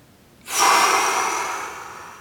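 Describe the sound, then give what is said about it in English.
A deep inhaling breath during a yoga breathing exercise: a single long, airy draw that begins abruptly, peaks, then slowly tapers over nearly two seconds, with no talking. “Inhale.”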